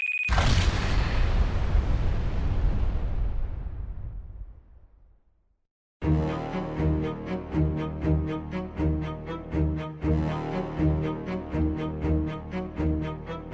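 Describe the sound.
A bomb explodes in an audio drama: one huge blast booms and rumbles away over several seconds into silence. Rhythmic music then starts up.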